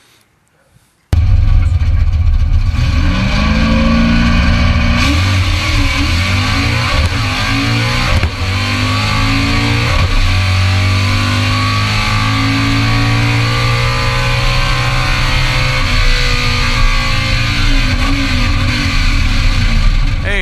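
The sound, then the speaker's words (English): A manual car engine revs loudly and climbs in pitch, then drops each time the driver shifts gears. The cycle repeats throughout. “Did you see he was shifting those gears? Did you hear that motor change every time he shifted? In fact, if he didn't shift gears, he's going to blow the motor up,”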